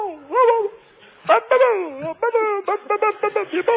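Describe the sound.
Dog-like whimpering: drawn-out, wavering whines, then a rapid run of many short, sharp yips near the end.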